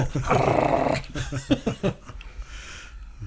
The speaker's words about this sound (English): Oh, look at that. Scraps is a boy dog.